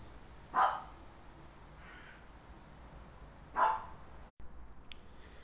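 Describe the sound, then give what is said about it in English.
A pet dog barks twice, two single sharp woofs about three seconds apart, fairly faint against a quiet background hiss. “Just had to take a slight little pause there. My dog was barking, so we're all good to continue.”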